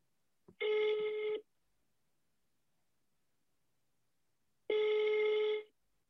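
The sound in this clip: A telephone call ringing out: a short click, then two long, steady ringback tones separated by about three seconds of silence, clear and alone.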